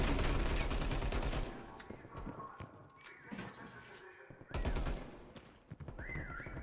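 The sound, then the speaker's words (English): Gunfire in a video game, with a player under attack: a loud, dense burst of rapid shots at the start that cuts off sharply, quieter scattered sounds after, then another hard burst and more shooting toward the end. “Just a decoy. I'm under fire, boys.”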